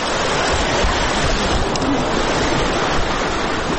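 Rushing floodwater flows past homes in Uruzgan province after overnight rains. It makes a loud, dense and unbroken roar that stays steady throughout, with no pauses.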